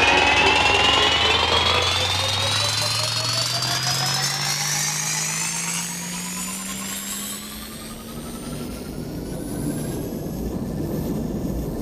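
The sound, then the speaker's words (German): Time machine sound effect starting to rotate: a loud, continuous mechanical whirring drone whose layered tones climb steadily in pitch over about twelve seconds, with no talking. “die Zeitmaschine beginnt zu rotieren.”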